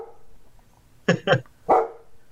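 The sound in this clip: A dog barks three times in quick succession. The first two sharp barks come close together and the third follows a moment later, loud against a quiet, faintly murmuring background.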